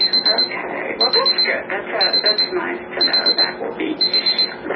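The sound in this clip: A timer goes off with high electronic beeps in short rapid bursts, five bursts about one second apart, while people talk underneath.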